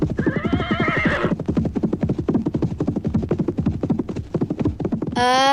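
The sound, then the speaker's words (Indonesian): Horses pulling a carriage neigh and clip-clop: a shrill whinny opens, quick steady hoofbeats drum throughout, and another high whinny breaks in at the end. “Anak-anak, berkat ketangkasan Pak Kusir, kuda-kuda itu mulai berlari lebih pelan.”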